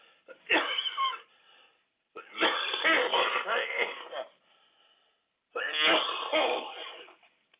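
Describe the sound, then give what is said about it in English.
Three rough bursts of coughing and hacking as someone brings up phlegm, wheezy and strained. The middle burst is longest, with short silences between them. “it's good just barfing up all this phlegm”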